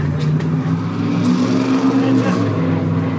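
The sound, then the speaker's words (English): A small airplane takes off at an airport, its engine making a loud, continuous droning hum with a steady low buzz throughout, with indistinct voices mixed in. “I can hear that little plane taking off.”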